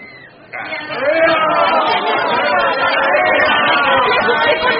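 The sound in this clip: Journalists and fans chattering in a bar make a dense babble of many overlapping voices. It is quieter for the first half-second, then jumps to a loud, steady hubbub with no single clear speaker.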